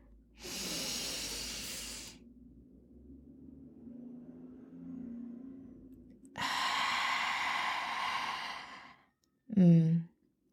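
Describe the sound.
Slow breathing out through the mouth during a paced breathing exercise: two long, soft, airy exhales separated by a quieter stretch, followed by a brief voiced sound at the end.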